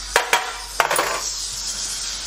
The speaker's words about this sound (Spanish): le cojo una cucharita para que no se quede nada